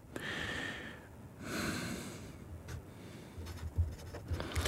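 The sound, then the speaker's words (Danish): Handwriting on paper: faint, scratchy pen strokes come in a few short bursts, followed by soft low knocks and rustles. “Nu skal I skrive ned, hvad jeres definition af en mand er. Okay, en definition af en mand, så skriver jeg.”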